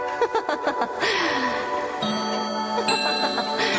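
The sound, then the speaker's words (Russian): Steady ticking from a tall, narrow clock in a wooden case in a hotel room at dusk, with soft, even ticks over sustained tonal sound. “А эти часы, узкие длинные часы в деревянном футляре, это вечный спутник принцессы, тайный советник.”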